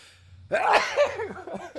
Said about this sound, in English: Was that a sneeze?